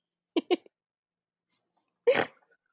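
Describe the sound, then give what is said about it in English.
A person lets out a snort: two quick nasal bursts, a tiny click, then a longer, noisier snort a moment later. “That's a great snort. I hope that doesn't get recorded.”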